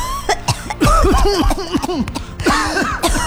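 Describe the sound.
Coughing from breathing in smoke from burning forest land, a loud run of rough, throaty coughs in many rapid bursts with little pause between them.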